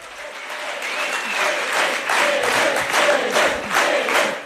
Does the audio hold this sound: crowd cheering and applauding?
yes